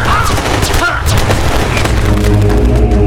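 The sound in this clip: Gunfire in battle as wounded soldiers keep fighting: a dense, continuous barrage of booming shots and blasts, loud and sustained throughout with no clear gaps.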